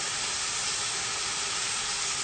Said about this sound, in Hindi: Bell peppers add कर लें. Flame आपने हाई रखनी है यहाँ पर बिल्कुल. और हमारे कैरेट्स